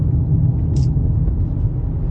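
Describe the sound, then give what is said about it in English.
Inside a car driving on the road, a steady, low road rumble and engine drone fill the cabin, constant and even throughout. “You know, I'm driving now as I record this. I'm driving on the road”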